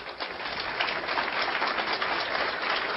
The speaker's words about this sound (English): please help me give a warm hand of welcome to our next speaker, Captain Joyce Riley.